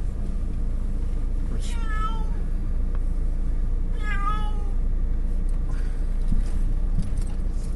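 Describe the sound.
A female cat meows twice, each call a short tonal cry with a slight bend in pitch, separated by a pause and heard over a steady low background hum.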